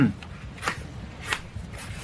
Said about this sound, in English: I found the walls were covered in this symbol. Here, I'll draw it for you.